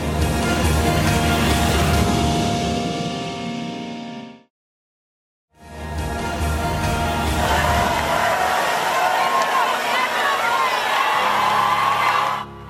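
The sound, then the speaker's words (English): Loud, dense cheering and whooping from a huge crowd of young people welcoming Pope Francis as he arrives in a park in Lisbon, Portugal, for World Youth Day; the roar drops to a brief silence midway, then swells back at full strength. “Hundreds of thousands of young people from all over the world welcome Pope Francis as he arrives in a park in Lisbon, Portugal.”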